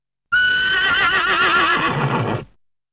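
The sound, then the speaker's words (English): A horse neighing: one loud, whinnying call of about two seconds with a quavering, wavering pitch, heard alone and fading out cleanly. “Horse.”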